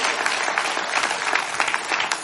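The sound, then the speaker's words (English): A church audience claps its hands in applause, a dense and steady wash of many hands that stays at an even level throughout the short clip. “Come on, give him a good hand clap.”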